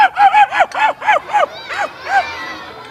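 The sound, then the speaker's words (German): A human voice imitates a barking dog: a rapid series of bright, yelping barks with arching pitch, the later ones fainter and more widely spaced. “Ein Hund, ja, das ist ein Hund, ja.”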